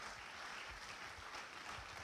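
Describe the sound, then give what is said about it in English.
Faint applause from a church audience welcoming a guest pastor at a morning service, a soft, even patter of clapping that runs throughout. “Let's put our hands together and give her a warm welcome here this morning.”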